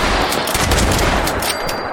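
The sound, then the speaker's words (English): Dense gunfire from a video game sounds as an airport comes into view: a continuous, loud, crackling burst of rapid shots with no pauses or voices. “I'm already getting shot at.”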